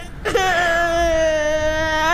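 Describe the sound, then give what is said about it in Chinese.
A child cries in a single sustained, tonal wail that begins abruptly after a short quiet moment and then holds loud and steady to the end, with no other sound over it. “孩子，别哭了啊！”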